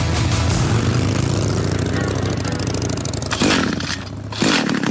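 A motorcycle engine accelerates with a steady, loud, rough roar. The roar holds with little change and dips briefly near the end before surging again.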